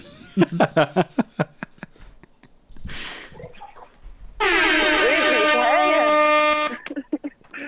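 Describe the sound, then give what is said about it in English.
A long, loud air horn blast of about two and a half seconds with a brassy, slightly wavering tone. Rapid bursts of laughter and voices come before it, and brief talk follows. “I'm going to hit her with the air horn right off the bat.”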